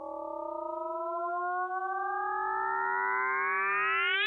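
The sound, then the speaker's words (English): Sonified gravitational waves from two colliding black holes: a sustained, buzzy harmonic tone that slowly rises in pitch, sweeping up into a final whoop, with fainter curving tones beneath. “I mean, you have two black holes colliding and it makes this whoop.”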